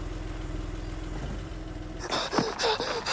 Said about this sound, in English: Janelle's car arrives at the house.